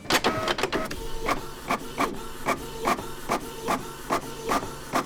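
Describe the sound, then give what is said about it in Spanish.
A printer running a contract document through, with quick mechanical clicks at first, then a steady, monotonous series of evenly spaced strokes and whirs repeating about every half second over a faint hiss. “yo creo que ese sonido de la impresora puesta en marcha, ese sonido repetitivo, aburrido y tal cual”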